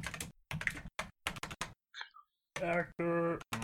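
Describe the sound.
Typing on a computer keyboard: rapid bursts of clicky keystrokes broken by short pauses, with a brief voice heard between bursts.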